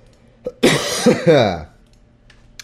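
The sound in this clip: Coughing from a tickle in the throat: a small throat sound, then a few harsh, loud coughs and a voiced throat-clearing, followed by near quiet.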